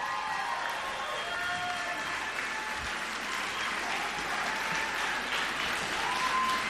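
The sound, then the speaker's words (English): An audience gives a standing ovation with sustained, dense clapping from many hands, steady and full from start to finish. “Thank you, Blue Velvet. How about that, y'all? Standing O.”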